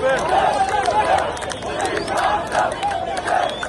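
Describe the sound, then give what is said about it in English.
Anti-government street protest crowd in Cairo, a dense mass of shouting voices that swell and ease in repeated rhythmic waves, loud and continuous throughout. “Because that is the sound of the streets of Cairo, where anti-government protests have been taking place in recent days.”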